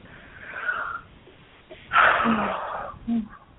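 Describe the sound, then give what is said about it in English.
A deep breath taken with no talk: a soft rush of air, then a louder, longer breathy exhale, ending with a brief final puff. “Yeah, good breath. Good breath.”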